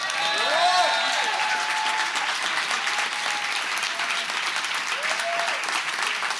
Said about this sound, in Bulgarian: Сега може да ръкопляскате.